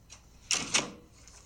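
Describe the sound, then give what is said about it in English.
A door opens or closes, heard as two short, sharp clicks close together, fairly faint. “No, but it is a door. The one in the shed?”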